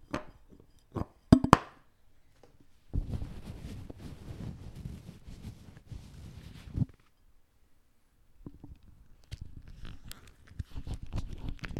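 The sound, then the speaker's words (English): Handling noises from a fake severed ear prop: a few sharp clicks and taps at the start, then stretches of rough, crinkly rustling and rubbing, with no talk. “That last one was a fake severed ear that is currently on our fake fruit bowl in the middle of our table.”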